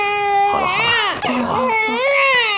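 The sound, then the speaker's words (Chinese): A baby cries in loud, continuous wavering wails with a short break near the middle before the crying resumes. “不哭了啊， 宝宝不哭，乖啊、哦，不哭。”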